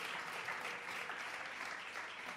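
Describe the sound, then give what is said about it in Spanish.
An audience applauds at a Friday religious vigil, with dense, steady clapping from many hands that holds at an even, fairly loud level throughout. “Un aplauso para Jesús, que nos encienda.”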